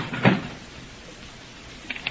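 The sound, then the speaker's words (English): A door is locked from the outside: one solid clunk, then a couple of faint clicks near the end over a low background hiss. “So, they've locked us in.”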